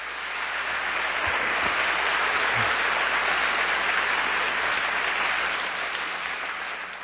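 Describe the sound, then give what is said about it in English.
A church audience gives a sustained ovation, broad and even applause that rises quickly and continues at a steady level. “If this is your story, I want you to give Jesus an ovation so others would hear it.”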